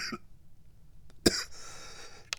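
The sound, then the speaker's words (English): Harsh coughing from a person with a persistent, irritated cough that also brings on gagging. One sharp, loud hack stands out in the middle, with fainter coughs at the start and end over a breathy background, and no talk. “I can't go more than 2 or 3 minutes without coughing and gagging.”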